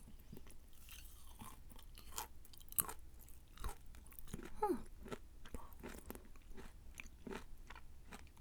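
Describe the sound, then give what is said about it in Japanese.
Someone eats freshly made stir-fried vegetables, giving many soft crunching bites and wet chewing sounds that are faint and irregular. “野菜炒めは出来上がったので食べようと思います。”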